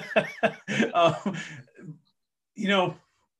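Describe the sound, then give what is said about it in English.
A person clears their throat, with a few short rough voiced bursts, then a longer run of catches. After a pause there is one more throaty burst. “excuse me, something in my throat. You just said this, but what a time to have something in your throat on a podcast, but excuse me.”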